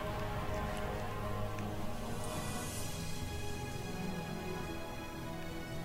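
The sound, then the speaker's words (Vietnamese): Rain falling over a damp wooden raft carrying people downstream, a dense, even hiss with faint ticking drops that holds a constant, fairly quiet level throughout. “Từng hạt mưa như từng mũi tên găm vào các vị trí khác nhau trên cơ thể”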